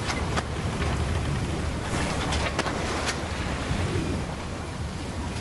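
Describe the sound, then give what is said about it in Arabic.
Stormy sea waves pounding against a ship make a continuous loud roar of surf and wind, with a few brief, sharper splashes rising out of the steady wash. “فجأة اشتدت العاصفة وبدأت الأمواج العالية تضرب السفينة التي بدأت تدور حول نفسها وتترنح يمينا وشمالا.”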